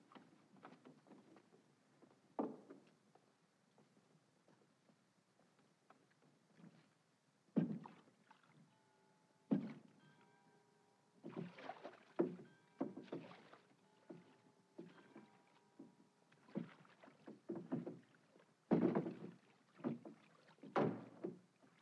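A rowboat is rowed on a river, heading downstream from Hampton to Chelsea. Irregular oar strokes and splashes come as quiet bursts, some spaced apart and some in quick clusters, with near silence between.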